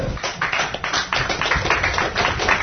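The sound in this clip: In a courtroom, onlookers applaud a court decision leaving a ministry's suit against a newspaper unheard. Many hands clap in a dense, steady patter throughout, without voices standing out.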